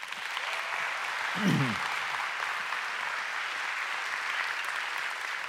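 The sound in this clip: Audience applause welcoming a guest speaker: a steady wash of clapping from many hands lasting over five seconds, with a short low sound breaking through briefly near the middle.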